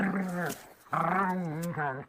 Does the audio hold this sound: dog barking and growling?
yes